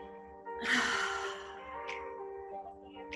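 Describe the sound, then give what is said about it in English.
A deep breath in during a guided body scan meditation: one long, airy inhale that fills the lungs and swells then eases away over steady sustained tones. “We're gonna bring our shoulders up to our ears. And on the exhale, we're gonna drop the shoulders and let it all go. Ready? Fill up the lungs.”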